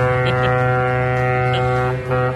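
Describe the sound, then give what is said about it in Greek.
A long, loud horn blast holds one steady, rich harmonic tone for the whole stretch without a break. “Μου να δεις μια μπουρού που θα ακουστεί εκεί στην Ποσειδόνος”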